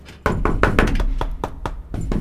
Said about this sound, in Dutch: Klopt iemand aan de deur?